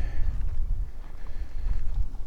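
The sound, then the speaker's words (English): Breezy wind gusts across a microphone outdoors at Tranquility Park, a continuous low buffeting rumble that swells and dips. “I'm outside walking around. And it's a little bit windier than I thought it would be.”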